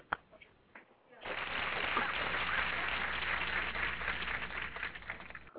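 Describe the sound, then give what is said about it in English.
A small group applauds themselves with a steady, dense patter of clapping that starts after a brief pause and continues evenly. It is quite faint throughout. “So let's all applaud ourselves.”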